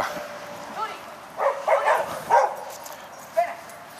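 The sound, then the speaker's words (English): A big, older female dog barks and whimpers in a few short, high yelping bursts that rise out of a steady background hiss. “somebody's attacking my dog, but she's old enough and big enough to figure it out.”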